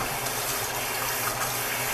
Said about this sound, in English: And I've added in a little bit more water as well.